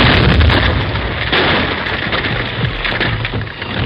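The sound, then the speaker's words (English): A mining blast in a gold mine tunnel, with loose shale sliding afterward. A loud, dense rumbling roar runs throughout without one distinct bang and eases slightly toward the end. “Each blast sent loose shale sliding into the valley.”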